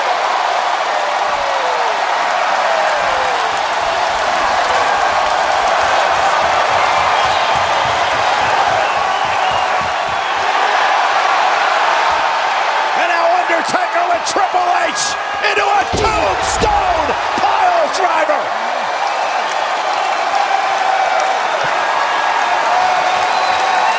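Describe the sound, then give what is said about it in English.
A wrestling crowd roars throughout a double chokeslam, with a cluster of heavy slam thuds partway through under continuous cheering and a commentator's voice. “HBK back on his feet. Uh-oh. Oh my God! Double choke slam!”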